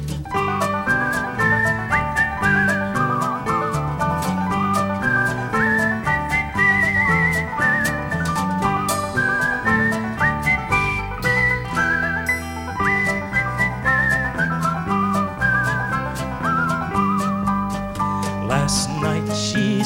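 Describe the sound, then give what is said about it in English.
A person whistles a wavering tune over a full, steady band accompaniment in a folk ballad, the whistled melody riding high above the instruments throughout. “They whistled and they sang till the greenwood rang. They rode off together. Whistle.”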